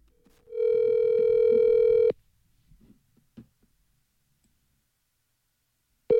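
A telephone call being dialed: a steady, loud dial tone holds for about one and a half seconds, then cuts off abruptly, followed by a few faint clicks and a short burst at the very end.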